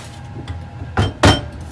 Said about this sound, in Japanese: 長くて硬いしっかりしたあのね硬さのある張りのある人参を切っていきますよ